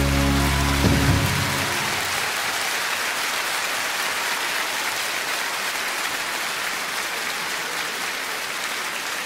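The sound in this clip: Applause and cheering from a mostly female audience at a singer's concert, rising as a brief musical ending fades, then a dense, steady ovation that holds loud and even to the end.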